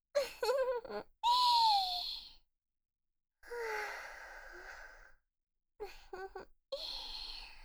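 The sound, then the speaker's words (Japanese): A voiced, drawn-out yawn with sighing breaths, heard as several breathy vocal bursts separated by short pauses, the longest swelling and trailing off softly. “あくびしちゃった”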